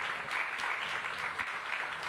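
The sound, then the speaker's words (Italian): Applause from an audience at a political party festival, cheering a line in a speech: a dense, even patter of many clapping hands, fairly faint and sustained throughout, with no distinct voices. “questo strappa l'applauso”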